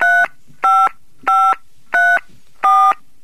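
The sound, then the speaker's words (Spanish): Telephone keypad tones as a call is dialled: five short, steady, fairly loud DTMF beeps at an even pace, with brief silences between them and no voices. “Bien, estamos llamando entonces.”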